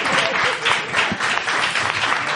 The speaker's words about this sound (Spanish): Un aplauso para nuestros concursantes.